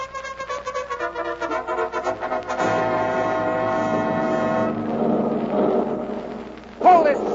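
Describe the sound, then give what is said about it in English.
A military tank drives off, its engine a loud, steady roar of low rumbling noise that holds for several seconds before swelling briefly near the end. “The principal weapon of this tank is a gun with sufficient firepower to penetrate the armory of practically any foreign tank. Today we're just going to take a little ride and kind of look it over.”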